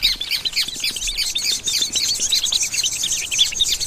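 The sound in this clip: Jays chirping in a busy, unbroken stream of high, quick chirps and squawks, many calls overlapping throughout without a pause.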